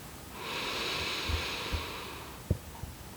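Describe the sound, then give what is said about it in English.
A deep breath drawn in slowly during a guided meditation: a soft, faint, airy hiss that swells and holds for under two seconds, then fades. “drawing in a deep breath”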